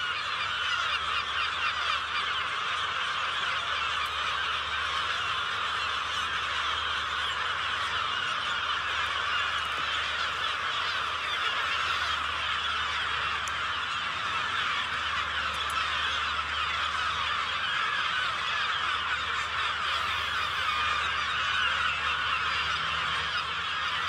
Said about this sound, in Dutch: Henny Radstaak daar tussen de meeuwen. Fijn geluid.